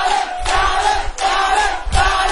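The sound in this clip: A crowd at a festival cheering and shouting for a guest, a sustained roar of voices broken by a few louder surges.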